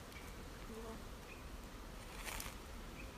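A wild bee swarm buzzes near a spot suited to a hive box, a faint, continuous drone of many insects that stays steady and unbroken.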